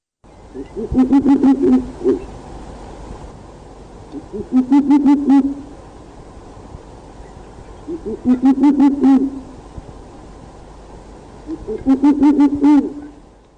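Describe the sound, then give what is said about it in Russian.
Owls hoot in four separate loud bursts, each a quick run of low hooting notes, separated by stretches of near silence. “Совы.”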